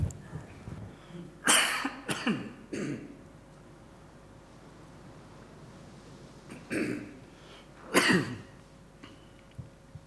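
Throat clearing and coughing from a man with a froggy throat: a few rough, raspy bursts in two clusters, separated by a quiet pause, with soft breathing between them.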